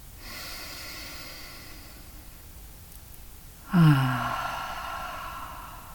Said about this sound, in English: Take three deep, long, slow breaths.